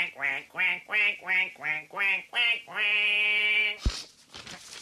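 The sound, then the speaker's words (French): A human voice imitates a duck: seven short nasal quacks in an even rhythm, then one long drawn-out quack, followed by a dull thud. “faites rentrer le premier canard s'il vous plaît. Bonjour, présentez-vous en deux mots. Quack, quack.”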